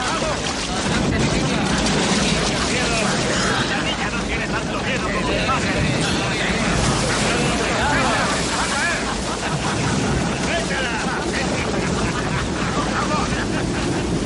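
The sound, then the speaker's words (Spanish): Enormous waves and wind toss a small boat in the rainy season off a New Zealand beach, a dense, steady roar of rushing water and wind that runs without break throughout. “enormes olas zarandean la embarcación”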